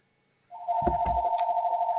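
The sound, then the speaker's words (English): An electronic telephone rings inside a house, a steady pulsing tone that begins after about half a second and continues without a break, with a few low thuds early on. “So sorry for the ringing in the background, but I'm in the house today and there's nobody else here to answer the phone.”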